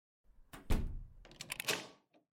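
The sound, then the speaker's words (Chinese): A door being locked gives a few mechanical clunks and rattles, with a heavy knock early on, a denser cluster of clicks in the middle, and one faint final tap. No voices are heard. “慢着，你去把门锁上。”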